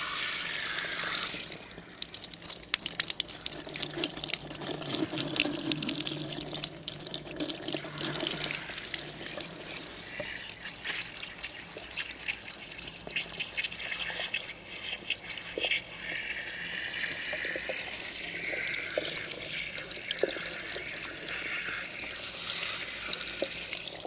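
Warm water runs from a tap without a break during a hair wash, a dense, steady rush and splash that holds at an even level throughout.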